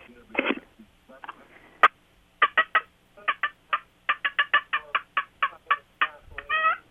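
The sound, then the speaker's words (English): Excited hen turkey cutting and cackling: an irregular run of many sharp, loud clucks and yelps, sparse at first, then tightly bunched, ending in a longer, ragged cackle. “But an excited hen, you know, the more cutting and cackling, it sounds like this.”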